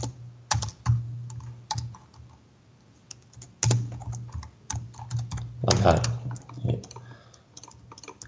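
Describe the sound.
Computer keyboard typing as a simple PHP hello world program is entered: a series of irregular clicks and key taps, some in quick clusters and others spaced apart, over a steady low hum.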